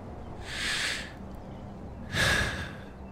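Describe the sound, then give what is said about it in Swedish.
Two long, airy breaths, clearly audible with no talk, as someone takes a deep breath. “Du tar ett djupt andetag.”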